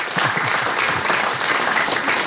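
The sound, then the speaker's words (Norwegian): Audience applause for a prize winner: dense, steady clapping that stays even and loud through the short stretch, with no voices over it. “men vi tar en applaus for prisvinneren,”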